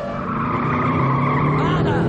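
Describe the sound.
Car accelerating hard with tires skidding during a crime drama driving scene, a loud, continuous engine roar mixed with harsh tire squeal that holds steady throughout.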